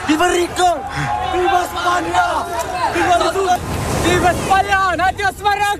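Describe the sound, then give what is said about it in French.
A crowd of migrants shouts and cheers as they arrive by sea, crossing from Morocco into Spain, some by swimming. Many loud voices chant and yell over one another, with a rushing noise of surf beneath. “Ce que vous entendez, c'est l'arrivée par la mer de milliers de migrants qui ont franchi la frontière entre le Maroc et l'Espagne, certains à la nage.”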